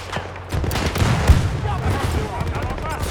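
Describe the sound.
Gunfire in a multiplayer shooter video game: rapid bursts of sharp cracks overlap in quick succession, with one heavier boom near the middle, the firing continuing steadily to the end.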